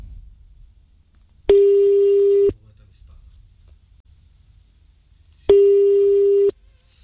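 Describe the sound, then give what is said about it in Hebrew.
Two long, steady, mid-pitched telephone tones sound as a call is placed, each lasting about a second, with quiet pauses of a few seconds around them and no other prominent sound. “אני מתקשר אליך מטלפון, שתראה באמת, שאני לא סתם עומד ועושה לך מתיחה”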